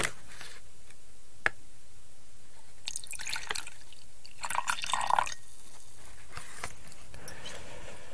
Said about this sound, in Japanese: そこら辺にあったグラス全然ウイスキーグラスじゃないやつなんですけどそこにウイスキーを注いで